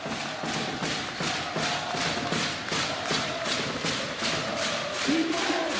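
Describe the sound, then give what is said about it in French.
Home crowd at a Nanterre basketball game cheering on its team, with a steady, fast rhythm of thumping beats under a continuous roar of crowd noise. “Et le public nanterien qui pousse son équipe.”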